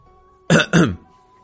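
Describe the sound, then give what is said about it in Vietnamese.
A man's hasty cough, two short harsh bursts right after one another with a throaty, voiced tone, heard alone against a quiet background. “Miêu Nghị vội ho một tiếng”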